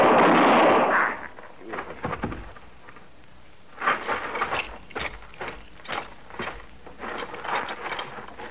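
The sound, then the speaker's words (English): A rifle gunshot inside a barn erupts as one loud, broad blast at the very start, lasting about a second as it dies away, followed by quieter talking voices. “I saw the rifle in his hand. Hold it, Trent. Die, blast you.”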